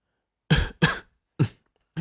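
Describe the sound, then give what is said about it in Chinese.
A man fakes a weak cough, performed as an audiobook effect: four short, separate dry coughs with no talk, the last one cut off at the end. “裴元君眼底闪过暖意，装作虚弱，咳了声”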